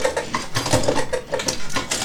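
A grinder crushing bottle corks gives a loud, dense, continuous mechanical grinding. Rapid rhythmic pulses and crunching run throughout without a break.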